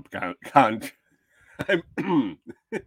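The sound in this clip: Throat clearing and coughing from someone with something stuck in the throat, a few short rough bursts separated by brief pauses, loud and close, mixed with a little voiced sound.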